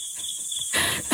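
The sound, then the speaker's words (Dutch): Crickets chirp in a continuous high-pitched trill, loud and steady, with the chirping growing denser near the end and no voices present. “En dat is het krekelgeluid, ja?”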